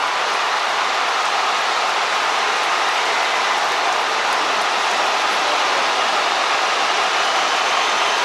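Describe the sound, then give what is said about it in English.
A football crowd roars after Cape Verde's stunning long-range goal, a dense, unbroken wash of noise that stays loud and steady throughout. “You can really hear the thrill and even the shock of the crowd.”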